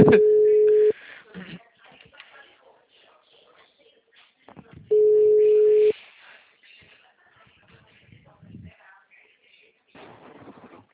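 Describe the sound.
Telephone tone after a call has been hung up: two long, steady beeps of about a second each, several seconds apart, with faint rustling and murmur between them.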